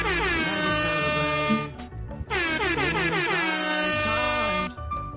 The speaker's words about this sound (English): Where is my air horn? There it go.